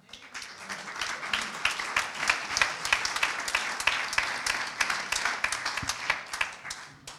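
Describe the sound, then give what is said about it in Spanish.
Audience applause during a church service: many hands clapping together in a dense, steady crackle that stays fairly loud and even from start to finish. “Un aplauso fuerte, amen.”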